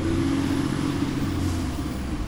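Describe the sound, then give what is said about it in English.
San Francisco Chronicle delivery truck pulling up in front of a liquor store to drop off newspapers: a steady, low engine drone that holds at an even level throughout. “A San Francisco Chronicle truck pulls up to drop off a stack of papers in front of the liquor store.”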